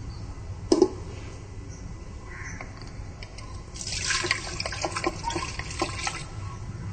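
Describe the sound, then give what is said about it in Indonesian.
Water splashing as coconut milk is rinsed with a little water while preparing rice: a sharp knock early on, then a burst of trickling, spattering liquid through the second half. “Santan kelapa, kita bilas dengan sedikit air.”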